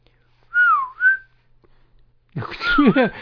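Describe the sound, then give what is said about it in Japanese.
A person whistles in imitation of sparrow chirps: two short sliding whistled notes, then after a pause a louder, breathier burst of warbling whistles. “口笛を吹いてるだけじゃないですか”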